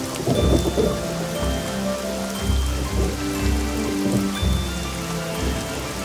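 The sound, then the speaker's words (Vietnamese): Rain falling onto a surface as a dense, continuous patter that stays loud and even throughout, with no voices present. “Yuhu, cuối cùng mưa đến rồi. Và mưa rồi.”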